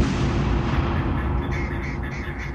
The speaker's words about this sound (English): the bombs explode. You see water fly everywhere.